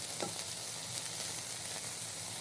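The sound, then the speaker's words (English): Onions and peppers sizzle in a pan without oil, producing a steady, even hiss of frying that continues without a break. “So I'm just going to throw it all in the pan together.”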